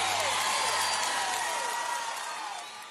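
An audience applauds and cheers for singer Wesley Safadão. Whoops and whistle-like tones slide downward over the clapping, and the noise fades out toward the end.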